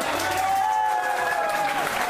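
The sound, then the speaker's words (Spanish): Crowd applause at a youth group community gathering, steady, dense clapping at an even loudness through the whole short stretch. “Eso, muy bien, un aplauso.”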